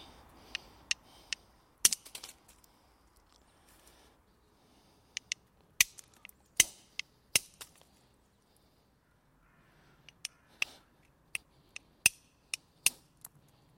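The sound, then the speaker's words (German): A piece of antler strikes the edge of a stone to knap arrowhead replicas. Many sharp, crisp clicks come in irregular bursts, separated by quiet pauses. “kann man dann versuchen mit Geweih so etwas weniger hart drauf zu schlagen. Da muss man immer schön die Kante treffen.”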